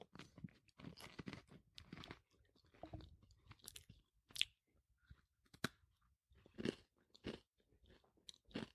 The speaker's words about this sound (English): I am eating it whole. I'll wait Ooh, for you. Mine's crumbling in my hand.